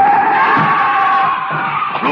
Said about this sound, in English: The car is trying to hit him.